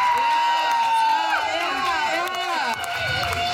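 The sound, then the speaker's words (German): Crowd cheering and whooping for the artist of an art exhibition, a dense, loud wash of voices with shouts rising above it that holds steady from start to finish. “Also ein riesen Applaus für den Künstler dieser wunderschönen Kunstausstellung,”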